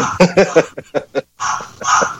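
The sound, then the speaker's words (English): Barking from a parrot imitating a dog: a few quick, harsh yaps followed by longer hoarse bursts, loud and clear with no talk over them. “if you guys are curious about that barking in the background, that's not a dog. It's actually Dwayne's parrot”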